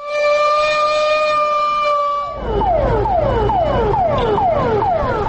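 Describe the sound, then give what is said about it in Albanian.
A civil defense alarm siren in northern Mitrovica signals the start of a public fire emergency drill. It holds a loud, steady multi-tone wail, then switches to many rapid, repeating falling whoops. “Sinjali alarmit në veri të Mitrovicës ka shënuar sot fillimin e ushtrimit simulues publik të reagimit në rast të emergjencës së zjarrit nga ana e organizatës së ashtu quajtur Civil Nazashtita Mitrovic”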